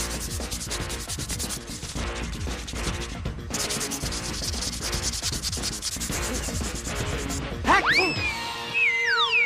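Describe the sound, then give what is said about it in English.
Sandpaper rubs a boomerang smooth in steady, rhythmic, rasping back-and-forth strokes. The many strokes are fairly loud and continue throughout. “Now, sand it down until it's nice and smooth. Using what else? Sandpaper.”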